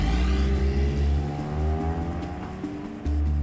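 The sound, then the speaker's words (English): A car drives east from the suburbs toward the Chicago skyline, its engine giving a steady tonal drone whose pitch shifts slightly as it goes, with road noise and no voices. “To get that answer, we're going to drive east from the suburbs until we can see the Chicago skyline.”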